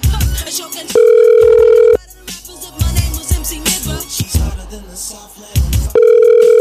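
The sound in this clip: An unanswered phone call rings back with two long, steady buzzing tones, one near the start and one at the end, separated by a stretch of talking.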